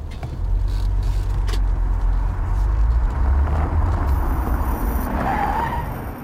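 A car skids with a tire squeal as it nearly hits the side of another car while parking. A loud, steady rumble runs throughout, and a brief squealing tone rises near the end.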